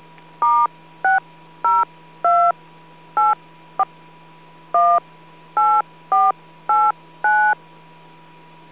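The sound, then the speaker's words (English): DTMF touch-tone beeps dialing a phone number through an amateur radio autopatch: a string of short, clean two-tone beeps at uneven spacing, one much briefer than the rest, over a steady low hum and faint hiss. “For all others, dial *+area code+number. It helps when you dial the number right. Let's try that again.”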